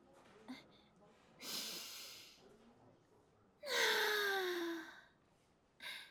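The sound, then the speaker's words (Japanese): A deep breath taken to calm nerves: two long, airy breaths, the second louder with a faint voiced tone falling in pitch, then a short breath at the end. “落ち着け自分。とりあえず深呼吸。”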